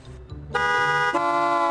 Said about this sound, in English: See your neighbor out for a stroll? Give him a happy Honda honk to say hello.